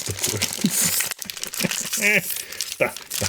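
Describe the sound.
Crinkling of tea packaging being torn open by hand, with crackly rustling bursts across the whole clip under talk.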